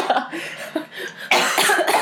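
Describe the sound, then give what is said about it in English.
Harsh coughing from a person choking on a noodle: a few short, scratchy coughs, then a louder, sustained bout of rough hacking in the second half. “Meanwhile, you're choking on congealed love.”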